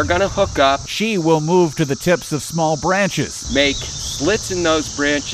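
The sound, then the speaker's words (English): Male cicadas' courtship song: a steady, high, buzzing drone runs continuously underneath a person talking the whole way through. “the males will switch over to what we call a courtship song. That's the sound you hear when cicadas are out.”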